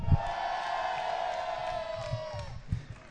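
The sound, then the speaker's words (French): A live audience at a giant cargolade gathering cheers on cue, with one long, sustained shouted whoop over a low crowd murmur and a few dull thumps. “eh bien, nous allons demander au public de se manifester. Est-ce que vous êtes là, chers amis?”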